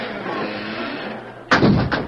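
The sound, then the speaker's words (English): Heavy wooden gates swing shut in a radio drama: a low, steady background rumble gives way to a loud booming slam, followed closely by a shorter second thud. “Now, close him, quick. Swing the gates closed. Hurry, I'll help with that gate.”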